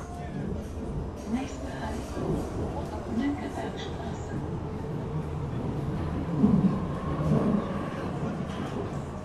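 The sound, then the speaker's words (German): A steady, loud rumble of an underground metro train riding beneath the city toward Mönckebergstraße, with a few louder jolts late in the ride and faint murmuring voices in the carriage. “Und ich steige ein. Los geht es unterirdisch in Richtung Mönckebergstraße.”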